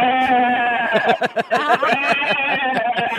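Lambs bleat while being carted in a vehicle down a country road in freezing 3-degree weather, giving many wavering, overlapping cries that blend into a busy, continuous chorus.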